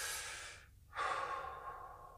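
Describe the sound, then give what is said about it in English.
Two deep breaths, soft and airy, separated by a brief pause of silence, with no talk. “And then take some deep breaths. T, take some deep breaths.”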